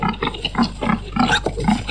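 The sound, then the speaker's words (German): Pigs grunting on a pig-fattening farm in Ramsen that holds up to 1800 animals, with many low, throaty grunts overlapping in a steady, busy stream. “Der Säulimasthof zu Ramsen hat Platz für bis zu 1800 Tiere. Die kommen als Ferkel auf den Hof mit etwa 25 Kilo.”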